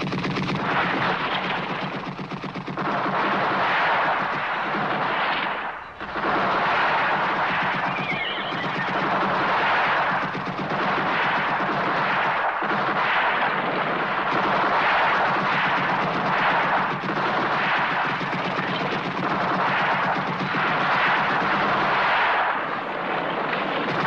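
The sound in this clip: Heavy gunfire follows an order to fire: a loud, dense, continuous roar of shots that barely lets up over the whole stretch, with only one brief dip, and no voices.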